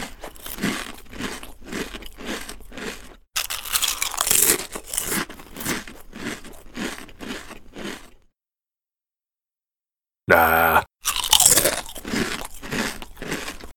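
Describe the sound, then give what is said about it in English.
Someone eats crisps, with steady rhythmic loud crunching and chewing, then a few seconds of silence, a short burst of crinkling and one brief spoken word, and the crunching resumes. “And now, a person deliberating over whether they have had enough crisps.”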